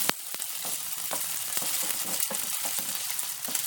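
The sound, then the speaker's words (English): Meatballs frying in a pan give off a steady, dense sizzle dotted with many sharp pops and crackles, with no voices. “Let's have a look at the meatballs now. Yeah, they all look like they're nicely cooked now.”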